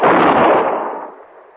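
A single loud gunshot from a radio-drama shootout in a warehouse: a sharp, heavy blast that holds briefly and then fades away.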